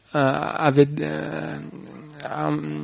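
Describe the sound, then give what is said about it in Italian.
Dogs growl and whine in low, throaty, drawn-out bursts, a few rumbling vocalizations separated by short pauses, moderately loud with no clear barks. “sei consapevole in un certo senso del disagio che provano questi cani che stanno abbaiando”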